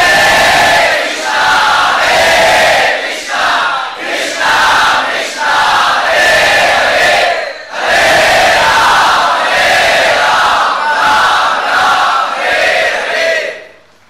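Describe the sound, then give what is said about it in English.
A large group loudly chants the holy names in Sankirtan during a Radha-Krishna festival celebration. The voices form a full, rhythmic call, pulsing in repeated phrases with brief dips between them. “And of course, it was celebrated as we celebrate every festival by the loud chanting of the holy names in Sankirtan.”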